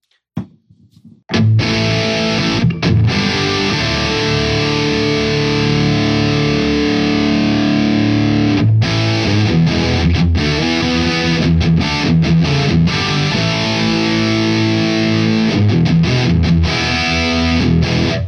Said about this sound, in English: I'm gonna turn on the breadboarded circuit of the DS1. You're gonna notice some more noise. That is just part of the fun of having a breadboard.